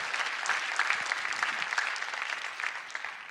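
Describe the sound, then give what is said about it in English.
Audience applause welcoming a pastor to the stage at a Life Center church gathering: dense, steady clapping from many hands, moderately loud throughout with no talk. “ladies and gentlemen, would you put your hands together and welcome, really no stranger to the Life Center family, Pastor Kenton Lee, as he comes and joins with me tonight.”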